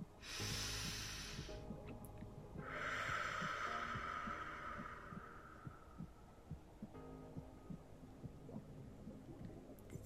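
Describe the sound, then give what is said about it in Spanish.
Deep breathing during a guided meditation: two long, hushed breaths over a low, steady pulsing rhythm like a heartbeat, which continues faintly afterward. “Respiro profundamente.”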